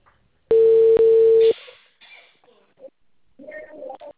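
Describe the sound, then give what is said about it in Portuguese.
A telephone ringing tone sounds on the line as a single steady, mid-pitched one-second tone. Quiet line noise and faint rustling follow it. “Agora chamou, agora chamou.”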